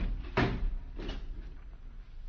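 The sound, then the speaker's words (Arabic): A door is closed with two dull, muffled thuds about half a second apart, the first louder, over a low steady background. “استنى ما رد الباب.”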